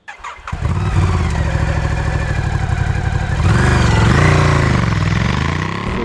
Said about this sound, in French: c'est une Ducati Scrambler 1100 Pro et 1100 Sport Pro. Alors, la différence, elle n'est pas que esthétique. Mais avant de rentrer dans les détails, on va partir faire un petit tour avec cette nouveauté italienne.